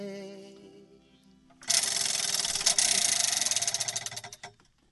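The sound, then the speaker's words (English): A prize wheel spins with a fast, dense rattle of ratchet clicks that gradually slows into separate ticks before stopping. A voice hums briefly just before the spin. “to engage the Pop Oracle on your behalf, I'm now going to spin the Wheel of Eight.”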